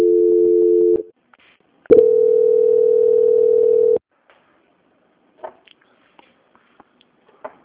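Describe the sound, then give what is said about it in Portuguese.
Telephone line tones play while a call is transferred: a steady electronic tone lasts about a second, then after a short gap a second, longer steady tone holds for about two seconds, followed by faint clicks and line noise. “Eu vou pedir agora para o senhor aguardar só um momentinho na linha, que eu vou transferir para o auditor e finalizar com o senhor”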